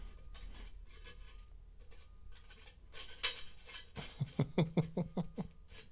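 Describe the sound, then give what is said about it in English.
An easy screw-on bottle lid is twisted open, giving a quick ratcheting series of sharp, evenly spaced clicks near the end. Quieter handling noises come before it. “Back to this easy screw-on lid.”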